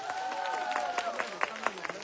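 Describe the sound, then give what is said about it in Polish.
Crowd applause at a children's rosary-group pilgrimage to Jasna Góra: a dense patter of claps mixed with voices, with sharper individual claps standing out toward the end. “Podziękujmy im gorącymi oklaskami.”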